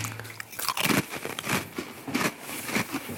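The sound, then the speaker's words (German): Crunchy biting and chewing of cake, with many crackly, moist mouthfuls at an uneven rhythm. The chewing is fairly loud and there is no talking. “Ich hole mal den Kuchen raus.”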